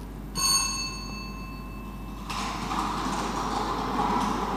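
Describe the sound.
Lottery balls dropping from draw machines into their outer compartments, one ball per drum, at an official draw. A ringing tone is followed by a steady, dense clattering rumble that continues to the end, with no voices.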